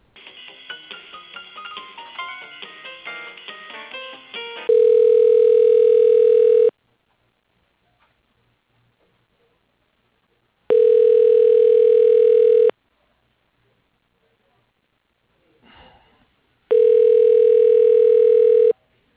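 A telephone ringback tone plays while a call is transferred to voicemail. A short run of melodic beeps is followed by three long, steady, mid-pitched rings of about two seconds each, separated by silences, with a faint click in one gap.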